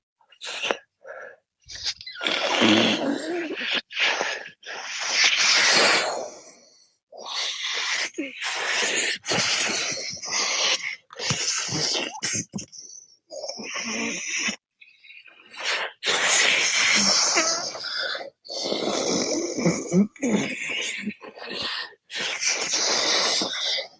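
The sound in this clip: Straw-suck sucking technique being demonstrated: a series of loud, breathy sucking and inhaling bursts in an irregular rhythm, separated by short pauses.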